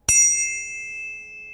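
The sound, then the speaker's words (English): A metal tuning fork is struck once with a sharp attack, then rings on in several pure, high, steady tones that fade slowly and are still faintly sounding at the end, with no other sound. “And then we have these as well too, the tuning forks”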